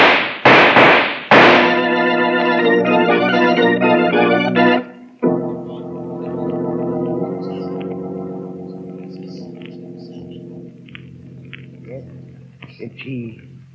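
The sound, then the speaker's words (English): Gunshots fired in the dark: three sharp, loud bangs in quick succession open the passage, then dramatic music with sustained, layered tones swells and gradually thins out. “It was dark and we thought the ape had killed him, so Jake just fired.”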